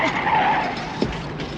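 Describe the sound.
A car skids to a stop, its tires giving a sustained scraping screech with a brief squealing tone early on and a sharper bump near the end.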